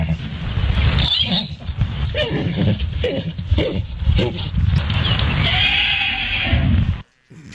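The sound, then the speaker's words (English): Miniature ponies mating, with whinnies, snorts and grunting neighs in an irregular, loud run for about seven seconds that ends abruptly. “they know how much we absolutely love animal mating noises, like a mini pony mating.”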